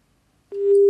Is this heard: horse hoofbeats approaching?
no